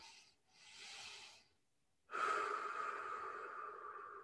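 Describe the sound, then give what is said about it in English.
Slow diaphragmatic breathing, belly expanding and drawing in: two short, soft breaths, a brief pause, then a long, steady, drawn-out exhale of faint airy rushing. “Very, very slow on that exhale.”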